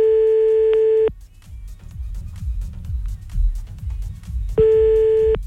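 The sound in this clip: Telephone busy signal heard after redialing a call: two long, steady, loud tone bursts at the start and end, separated by a stretch of low rumbling noise.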